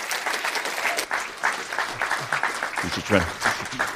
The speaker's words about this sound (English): Would you put your hands together for him?